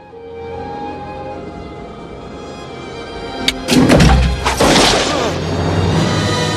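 A gunshot rings out as a man is shot in the stomach in a tense standoff: one sharp crack, then a few heavy thumps and crashes over a steady low background.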